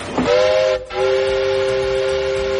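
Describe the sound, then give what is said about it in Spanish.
Shrill whistle of a new train sounds in two loud, sustained harmonic blasts: the first is cut by a brief break, and the second holds steadily to the end. “que como pita esto, de verdad, el tren. Cómo se nota que es uno nuevo y no como los de Oscar Puente.”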